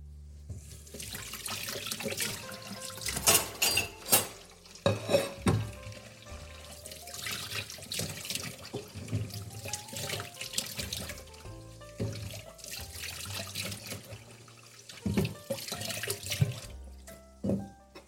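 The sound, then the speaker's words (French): Running tap water in a kitchen as hands and sweet potatoes are washed, a continuous rushing stream with splashes and a few louder gushes as the flow is disturbed, with no talk. “petit lavage de main, petit lavage des patates douces.”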